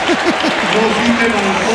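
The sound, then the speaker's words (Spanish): A crowd applauds as bulls enter the pen after the encierro. The short burst of clapping sits under a man's voice. “Muy bien, se han ido todos para adentro. Otro aplauso. Otro aplauso.”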